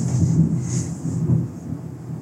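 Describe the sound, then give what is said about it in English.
Heavy rain pours down in a steady high hiss over a deep, uneven rumble that surges and eases, with no voices. “Holy shit, it's raining so bad.”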